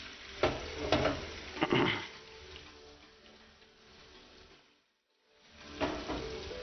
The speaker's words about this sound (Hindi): इसको प्याज इस तरीके से हम ब्राउन कर लेते हैं।